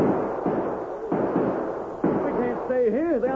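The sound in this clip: Rifle gunfire aimed at the decks of a ship in a battle, a loud continuous roar of shots with a few sharper bursts, joined near the end by a wavering, whistle-like tone.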